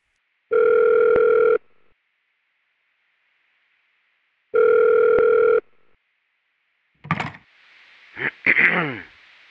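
Telephone line tone as a listener calls in: two loud, steady ring tones, each about a second long and separated by silence, followed by a few clicks and brief noisy sounds.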